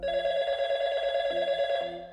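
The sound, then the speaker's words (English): A telephone rings with a steady, trilling tone, loud and sustained throughout before easing slightly at the end. “The phone kept ringing.”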